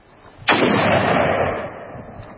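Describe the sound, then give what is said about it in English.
A single gunshot rings out at a gun range: one sharp, loud crack followed by a ringing decay that trails off over about a second. “we play this New York Daily News reporter acting about how freaked out he is after he went into a gun range and shot a gun.”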